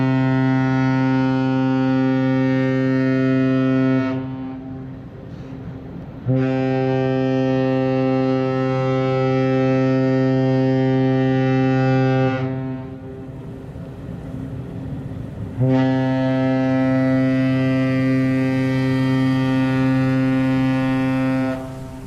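A ship's horn sounds as the vessel leaves Yokohama port at the start of a round-the-world voyage: three long, deep, steady blasts rich in harmonics, separated by short pauses, with no talk over them.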